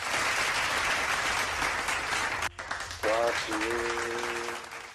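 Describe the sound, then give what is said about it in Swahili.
Applause from an audience after a quiz answer: dense, steady clapping goes on for about two and a half seconds, cuts off abruptly, and then a voice speaks. “Ongeza makofi yajatosha.”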